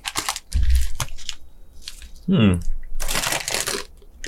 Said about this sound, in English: These are definitely plantains. They are not banana. Yeah, it don't taste nothing like a banana. No. At all. Like, this is something you can just eat for the crunch all day.